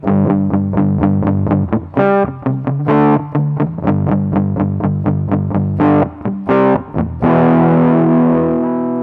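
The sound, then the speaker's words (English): Overdrive distortion on an instrument: a loud, gritty run of many short, separate notes with a few longer held ones, ending in a sustained, fuzzy chord. “Yeah, and let's try some overdrive.”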